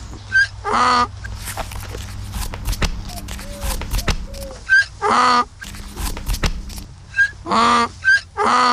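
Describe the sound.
A voice imitating a donkey's bray: several loud, harmonic two-part hee-haw bursts in clusters, with quieter shuffling in between.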